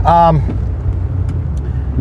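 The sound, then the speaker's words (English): A car's engine rumbles low and steady as it drives and turns through city traffic alongside a big truck, with a brief voice at the very start. “I'm trying to make a turn here with a big truck that's also trying to make a turn, and boy, driving through the city is a bitch.”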